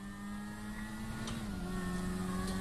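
A motorcycle engine drones steadily in a video game during a police chase. The hum is faint and even, and its pitch drops slightly partway through.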